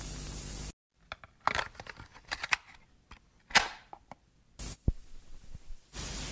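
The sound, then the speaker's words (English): A cassette tape is flipped over to side two. Steady tape hiss stops, a run of sharp plastic clicks and clacks follows, and then the hiss returns. “flip tape over for part two.”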